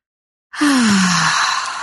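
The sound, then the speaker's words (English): A deep breath taken during a guided gratitude meditation: a long, breathy exhale lasting over a second, carrying a low voiced sigh tone that slides downward in pitch, heard alone. “So let's take that breath of love and gratitude.”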